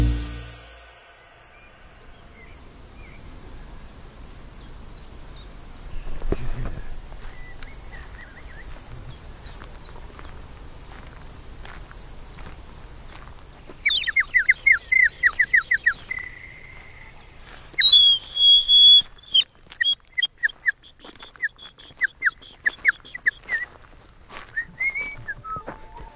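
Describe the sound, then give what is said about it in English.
Birdsong in the Kent countryside, joined by a person whistling in imitation of birds: faint calls at first, then rapid bursts of high, trilling chirps and whistled phrases in the second half, with no talk. “That's the sound of the idyllic Kent countryside, the native wildlife joined by something a little more exotic”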